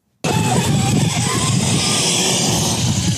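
Remote-controlled toy cars drive with a steady, buzzing motor drone that starts abruptly and holds an even, fairly loud level to the end.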